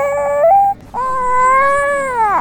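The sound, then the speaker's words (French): A baby whimpers while carried on its mother's back in the sun, giving a short tonal whine and then a longer, sustained wail that wavers and drops off at the end. “Probablement fatigué et ne supportant pas les rayons du soleil, le bébé gémit sur le dos de sa mère.”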